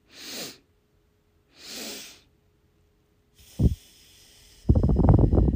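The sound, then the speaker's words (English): Two breathy nasal inhales separated by a short pause, then a brief low thump and a louder, rough exhale through the mouth, a cyclic sighing breathing exercise. “Okay, so I breathed in twice through my nose, halfway filling my lungs, then completely filling my lungs, then slowly breathing out through my mouth.”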